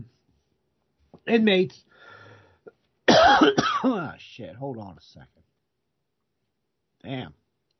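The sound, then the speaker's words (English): Throat clearing: a few harsh, gravelly vocal bursts with rough noisy onsets, separated by short voiced sounds and pauses. “I gotta get my throat clear.”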